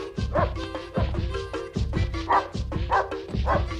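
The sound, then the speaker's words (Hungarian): A female dog barks repeatedly as she jumps up at a door, her loud, rough barks coming in a steady, fast rhythm of many bursts over a continuous bed of noise. “Pedig a vak is látta, hogy szuka kutya volt, amikor felugrott az ajtóra és vityorgott.”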